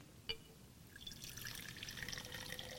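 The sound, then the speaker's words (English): Water poured into a container: a faint trickling, splashing stream that begins after a small click and continues steadily at a low level. “So this water, which I really can't have any control over, when I pour it in,”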